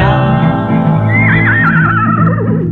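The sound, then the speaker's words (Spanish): A horse's whinny rises over a vintage song's backing music, a high, shaking neigh that wavers and slides downward in pitch for well over a second while the steady instrumental tones continue beneath. “Y a la blanca luna le diré que mi potrito empieza a”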